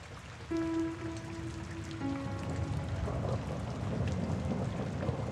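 Steady rain falls in a continuous soft hiss of drops pattering on a surface, even and unbroken from start to end.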